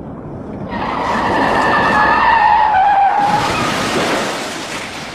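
A car's tires skid in a long, loud screech that swells over a few seconds as a sustained high squeal, then gives way to a harsh noisy scrape before fading.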